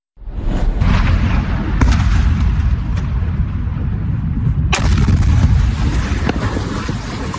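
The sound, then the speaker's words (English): An Iranian missile strike in Jordan produces loud explosions: a deep, sustained rumble roars throughout, broken by a few sharp blasts, the strongest about two-thirds of the way through. “That is an Iranian missile strike you are watching that killed three Americans in Jordan back in July.”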